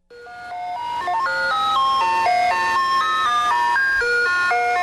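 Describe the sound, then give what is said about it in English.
Ice cream truck chimes play a tinkling melody of bright electronic notes, one after another at a brisk, even pace. The tune stays steady and fairly loud throughout, with no talk. “While those chimes come in different melodies, the tinkling sounds pretty universal. It's the sound of the ice cream truck.”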